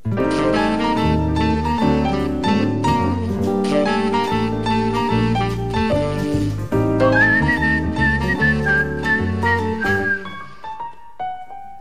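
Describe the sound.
A person whistles a tune in a stage show, a steady melodic line carried over full instrumental accompaniment with sustained chords. The whistled phrase rises into a wavering held note near the end before the music fades.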